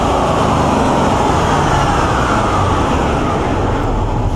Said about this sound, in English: It's a dyno run. Oh, it is. Yes. It is a dyno run. Okay. What vehicle was on the dyno? Is it an engine on a stand or is it a vehicle on the dyno? It is a vehicle on an in-ground dyno.